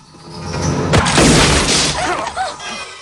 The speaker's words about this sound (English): Forrest walks onto the landing with two guns. Forrest shoots the ceiling with one and the man with the other.